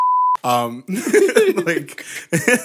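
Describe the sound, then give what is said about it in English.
A censorship bleep: a single steady, high-pitched electronic tone, brief and loud, covering a spoken word before talking resumes. “we're already getting into the bleeps. Yeah. So, but yeah. No, I get what you're saying. And also, again, when it comes to communication, just the words that you are using, since we're talking about, and Zach's going to beep this out”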